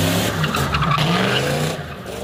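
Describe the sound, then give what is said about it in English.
Cars skid around a parking lot at an enthusiasts' car meetup, tires squealing in a loud, sustained screech over a roaring engine that fades slightly toward the end. “Enthusiasts show off their vehicles and sometimes skid around the parking lot in chaotic and dangerous fashion, as shown in this video obtained by Las Cruces police.”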